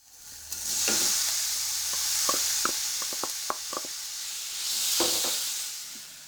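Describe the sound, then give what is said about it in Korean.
Minced meat and chopped ginger stir-fry in a pan, giving a soft swelling hiss of frying broken by a series of sharp wooden knocks and scrapes as a wooden spatula keeps stirring. “알갱이가 작은 소보로를 만들기 위해 나무 주걱으로 잘 저어가면서 볶습니다.”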